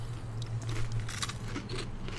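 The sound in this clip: Butter cookies are bitten and chewed, with a few faint, crisp crunches and scraping bites over a low, steady hum.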